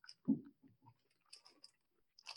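Chewing on a peanut butter candy bar, with moist crunchy bites coming in several irregular bursts. The first bite is loudest, and no voices are heard.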